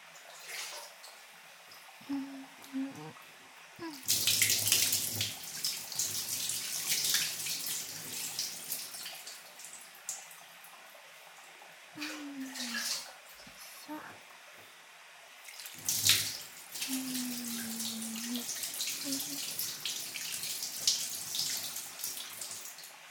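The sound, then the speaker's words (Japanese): Warm water rinsing hair: running water rushes in long stretches, fading between pours, with a soft voice talking in the quieter gaps. “今度は取れやすくなった汚れをお湯で流していきますね。”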